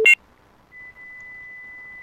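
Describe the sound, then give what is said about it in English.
Fax machine tones on a phone line: a short, loud burst of beeping tone at the start, then a quiet gap, then a thin, steady high tone that holds unchanged to the end. “You know, I can hear what sounds like a fax.”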